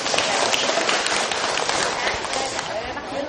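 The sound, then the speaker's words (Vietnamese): Applause from the audience at a Buddhist dharma talk: dense, steady clapping that fills the whole clip at an even, fairly loud level without a break. “Thầy xin cho một tràng pháo tay.”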